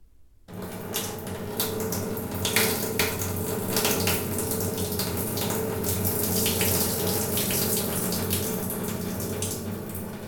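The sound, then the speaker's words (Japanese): Person urinating while standing: a steady, continuous splashing stream of liquid starts abruptly after a brief silence and runs on at an even level for about ten seconds. “それじゃあおしっこしていきます。立ったままってなんか緊張する。”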